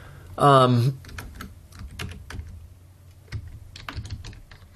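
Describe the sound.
Quick typing on a computer keyboard, many light, irregular keystrokes clattering steadily after a short vocal sound, fairly soft and continuing to the end.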